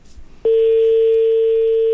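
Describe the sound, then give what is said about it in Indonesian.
A dropped call on a radio call-in phone line: after a brief low murmur, a loud, steady single-pitched disconnect tone begins abruptly and holds without a break. “Terputus.”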